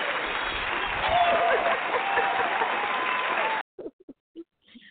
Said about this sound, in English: How about a hand clap for each and every one who's been faithfully coming to the call, who's still in the fold for each and every one?